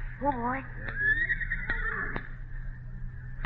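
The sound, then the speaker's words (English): A nervous horse gives a shrill, quavering whinny at the start. Fainter snorts and clicks follow while a man talks calmly over them. “he's a beauty. As fine a piece of horse flesh as a man could want. Now let's talk easy-like to him. See, he's quieting down, see?”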